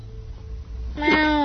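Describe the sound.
A human voice imitates a cat's meow, giving a single short, loud, tonal meow at the very end after a quiet stretch.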